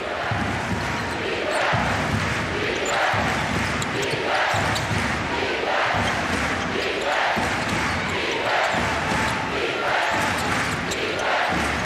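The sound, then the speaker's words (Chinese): A crowd roars and cheers through an international basketball game between Japan and Germany, a loud, continuous wall of noise with a steady rhythmic pulse running beneath it. “现场的加油声是震耳欲聋啊！”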